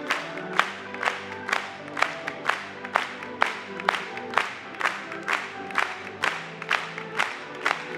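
Rhythmic audience clapping during a church hymn, crisp claps landing on a steady beat about twice per second over sustained music underneath.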